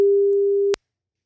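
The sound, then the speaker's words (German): A telephone line ringing out on an outgoing call: one steady, mid-pitched electronic tone lasting under a second, cut off sharply and followed by silence. “Dann lass mal anrufen.”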